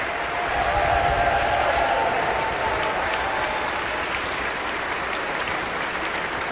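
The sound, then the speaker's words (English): An audience applauds an orchestra and its conductor after a concert, a loud, continuous clatter of many hands with a brief swell of cheering early on, steady to the end. “The full orchestra stands, receiving the appreciation of the audience.”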